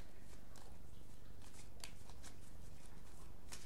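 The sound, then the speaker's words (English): Cards from a Sacred Geometry oracle deck are shuffled and drawn, giving soft papery rustling with a few crisp flicks throughout. The sound is quiet and continuous over faint background hiss. “today I'm going to be drawing one card from the Sacred Geometry deck, and then one card from the After Tarot.”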